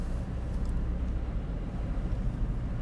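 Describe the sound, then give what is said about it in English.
A car driving in traffic gives a continuous low rumble of engine and road noise, steady and unbroken, with no talk over it. “right now we're in traffic and I have to concentrate on what I'm doing because I don't think the people in front of me know that I am here.”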